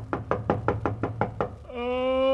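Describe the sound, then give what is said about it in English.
Knocking on a bedroom door early in the morning: seven firm, evenly spaced raps in a steady rhythm, followed by a sustained, level humming tone. “Henry is awakened by a knocking on his door”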